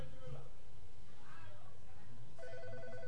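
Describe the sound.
A telephone rings with an incoming call to a radio call-in program, a pulsed electronic trill that starts near the end over a low steady background.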